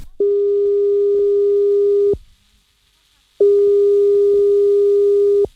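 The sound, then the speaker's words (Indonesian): Telephone ringback tone heard while calling someone: two long, steady, mid-pitched electronic tones, each lasting about two seconds, separated by a short silence. The tones are loud and clean, with no voices. “Sebentar, tak telpon Bu RT disit”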